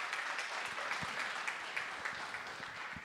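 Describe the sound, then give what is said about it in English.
A church audience applauds as a guest speaker comes up, with fairly quiet, steady clapping from many hands and a few sharper individual claps standing out. “Let's give him a hand as he comes up.”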